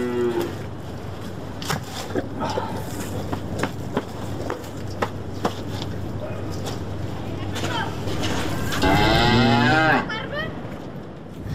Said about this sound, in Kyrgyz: Мына монтип жайытка чыгат мал.